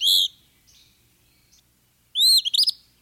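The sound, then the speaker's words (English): Eastern Phoebe song: a sharp, high whistled burst, a pause, then a quick run of a few buzzy, chirping high notes, clear with no voices. “This brisk whistle belongs to a bird named for its song, the Eastern Phoebe.”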